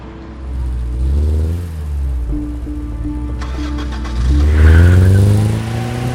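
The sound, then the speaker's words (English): A car engine as the car drives out of a gated driveway onto the street. The mid-pitched motor rises and falls through several revs, ending in a louder, climbing surge of acceleration. “Out on the street, Jacob glances over at the gated driveway as Dr. Wentworth's car emerges.”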